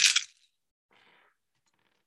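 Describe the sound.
Several dice rolled at once during a tabletop game, a quick loud clatter followed by a fainter rattle as they settle.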